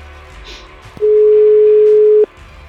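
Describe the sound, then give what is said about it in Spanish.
A telephone dial tone sounds while a call is being placed: one steady, loud, unbroken mid-pitched tone lasting just over a second, with quiet line noise before and after it. “Ahora vamos a llamar por teléfono a Alejandro Blanco”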